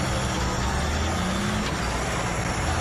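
A vehicle rolls up from behind at a roadside checkpoint, giving a steady, loud engine rumble and broad road noise that holds evenly throughout without a clear break.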